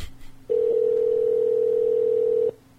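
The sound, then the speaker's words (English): A telephone tone sounds while a call is being placed. It is one steady electronic beep lasting about two seconds, constant in pitch and loudness, that cuts off cleanly, with no talking. “Call him on your phone.”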